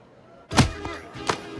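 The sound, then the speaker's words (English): A man's head is thumped repeatedly into turf: three dull, low thuds, the first the heaviest and a fainter one close behind it, over quiet background noise. “head is thumped repeatedly into the turf and his face pummeled by the guy”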